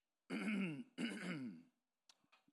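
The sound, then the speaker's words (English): Throat clearing after eating before a church service: two quiet, rasping clearing sounds in quick succession, followed by a few faint small mouth noises. “I shouldn't have eaten before church. You know, when you eat before church, you feel like you got to clear your throat all the time.”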